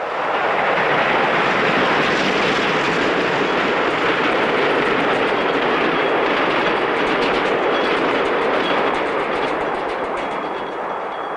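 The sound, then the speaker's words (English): A train rumbles by near a dress shop's darkened workroom, a loud, unbroken roar with a faint rattling texture that holds steady and eases only slightly at the end. “Overhead, a light fixture trembles as a train rumbles by.”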